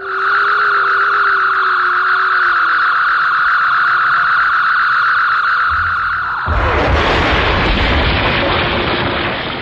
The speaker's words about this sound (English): You just disintegrated Newt, along with about 30 square feet of the Oscar Mayer plant.